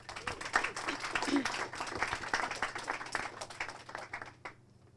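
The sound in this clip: Audience applause welcomes a speaker: dense, steady clapping from a crowd holds at an even level, then thins and fades out near the end.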